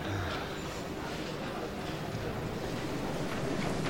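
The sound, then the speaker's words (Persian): Footsteps coming down a staircase: a faint, steady run of soft knocking steps, with no clear beat, under a constant background hiss. “از پله ها میاد پایین.”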